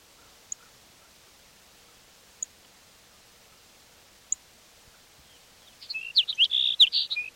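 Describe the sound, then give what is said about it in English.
Sparrow song arrives as a quick burst of high, bright chirps in the final seconds, preceded by three faint, isolated ticks against a quiet background. “Sparrow number 6.”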